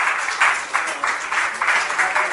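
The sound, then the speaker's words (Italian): Applause from an audience at a conference panel for a panelist, a steady wash of many overlapping claps at moderate volume with no pause. “Allora, io farei un grande applauso a Picasso.”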